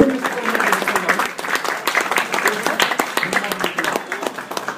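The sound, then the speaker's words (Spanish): Audience applause at a live comic-book chat event: dense, steady clapping that holds for about five seconds, with a voice briefly audible beneath it. “Un aplauso para Beto.”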